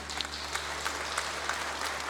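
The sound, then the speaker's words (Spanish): An audience applauds in a church during a eucharistic devotion, with dense, sustained clapping from many hands at an even level throughout and no clear talk. “aplauso a Jesús sacramentado.”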